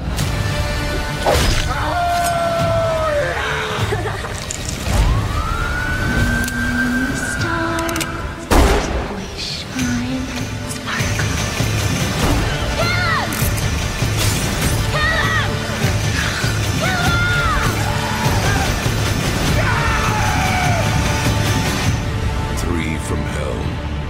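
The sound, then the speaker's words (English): Trailer audio for the horror film Three From Hell, with voices speaking over a dense mix of booms, crashes and whooshing hits and a sharp, loud impact near the middle. “So you just heard the trailer for Three From Hell.”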